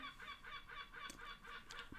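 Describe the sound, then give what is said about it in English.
Goose-like birds honking in a quick, steady series of nasal, harmonic calls, many in close succession, quiet overall. “Even the birds are laughing.”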